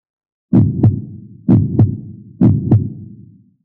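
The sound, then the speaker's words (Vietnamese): Heartbeat sound effect for a racing heart: three heavy lub-dub double thumps in a steady rhythm, each a deep, loud thud followed quickly by a softer second beat, with a low resonant tail between them. “Tiếng tim đập.”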